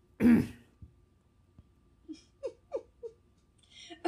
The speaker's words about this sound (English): The throat clearing really makes it good.